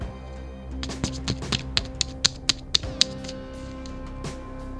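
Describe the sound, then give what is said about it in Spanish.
A deck of cards is shuffled, giving a run of light, crisp taps at a fairly even pace over a steady low hum. “Bueno, vale, voy a mezclar las cartas.”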